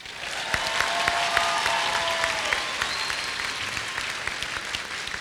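Audience applause at a question-and-answer event: a dense, even clatter of many clapping hands, steady and fairly loud throughout, with a few sharper claps standing out.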